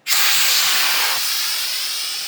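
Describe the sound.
A pressure release valve lets out a loud, steady hiss that starts abruptly and slowly eases off over about two seconds, alone and without talk.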